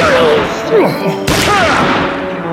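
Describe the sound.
A single pistol shot cracks out during a shootout between a deputy and escaping prisoners, a sharp, brief burst in the middle of tense voices that speak before and after it.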